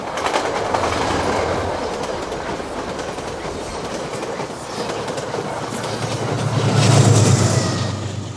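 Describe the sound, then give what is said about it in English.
A train whizzes past an outdoor platform by a lake with mountains behind, a loud continuous rumble and rhythmic wheel clatter that holds steady and then swells louder toward the end. “A train whizzes past as they sit side by side on a sunny bench on an outdoor platform”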